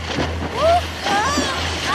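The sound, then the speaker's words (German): An ocean wave crashes and splashes, a continuous rush of water that swells louder midway, with high, voice-like cries sliding over it. “Oh nein, die Welle hat sie einfach umgerissen.”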